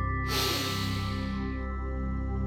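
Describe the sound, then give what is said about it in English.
One deep breath in during a relaxation exercise: a long, airy inhale begins abruptly and fades away over about a second, over soft, steady background tones. “And one more deep breath in.”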